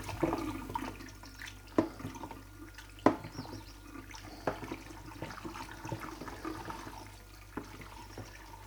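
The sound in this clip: Water rushes steadily through a sieve as freshly cooked Nockerl dumplings are drained and stirred, with a few sharper clinks and scrapes from the stirring.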